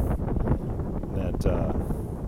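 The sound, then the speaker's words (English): A breeze blowing outdoors, heard as rough, continuous buffeting wind rumble with uneven gusty swells. “there's a nice breeze here”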